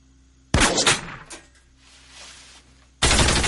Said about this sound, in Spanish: Las balas impactan en los cubos.